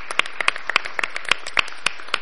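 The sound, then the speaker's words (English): A small audience at an ICANN meeting gives a round of applause, a light scattering of distinct, crisp claps at an uneven rhythm rather than a dense roar, fairly quiet overall. “I thought we'd just like to give her a round of applause and thank her for her years of service.”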